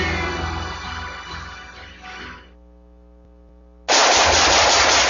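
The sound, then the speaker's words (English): Rapid automatic gunfire roars as a dense, continuous burst that fades after about two and a half seconds. A low hum lingers, then a loud new burst of firing starts abruptly and holds to the end. “Nice shooting.”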